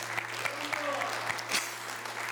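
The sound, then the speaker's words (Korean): Audience applause at a Korean shamanic rite for the dead: steady, dense clapping from a crowd, with sharper individual claps popping out over a continuous low hum. “박수 나오네요.”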